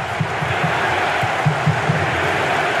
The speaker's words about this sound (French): Et le public hein, qui joue son rôle. On entend qu'ils sont un petit peu réveillés.